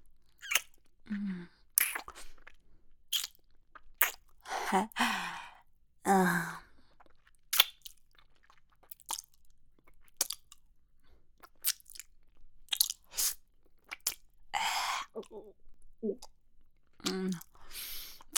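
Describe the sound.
Wet crunching and biting of a creature chewing and eating a person: many irregular, crackling bursts scattered throughout, with sighs and breathy gasps between them.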